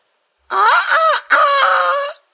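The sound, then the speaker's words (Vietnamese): A rooster crows once at dawn, a loud, harmonically rich call lasting under two seconds with a short break in the middle and a wavering pitch, heard alone. “Tiếng gà gáy sáng truyền vào tai Mặt Cầu.”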